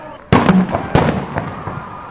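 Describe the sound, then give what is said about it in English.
Two sharp, loud bangs of a police stun grenade fired at students during a campus clash, the first early on and a second under a second later, each trailing off in a rumbling decay. “The police also entered the fray and fired a stun grenade at the students.”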